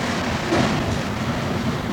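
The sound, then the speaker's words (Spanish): Rumble of the last carriage of an orange-line underground metro train in motion, a steady, moderately loud low roar with faint rattling and no distinct separate events. “Cuatro somos los que estamos en este último vagón del tren.”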